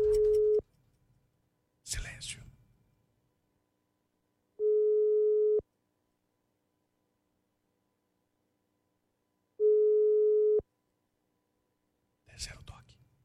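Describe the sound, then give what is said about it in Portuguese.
Telephone ringing tone during a call to a radio listener for a prize: three steady, even mid-pitched tones about five seconds apart, with brief soft rustling noises in the gaps. “Vamos lá. Vamos ligar pro nosso ouvinte.”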